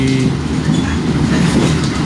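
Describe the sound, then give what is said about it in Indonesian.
The Argo Sindoro passenger train runs on the rails toward Jakarta with a loud, continuous rumble and a steady clatter of wheels, unbroken for about two seconds and with no talk. “Oh, ini situasi dari kereta api Argo Sindoro ya, yang akan perjalanan menuju ke Jakarta”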